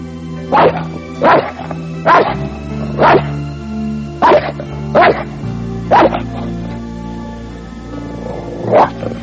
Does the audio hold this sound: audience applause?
no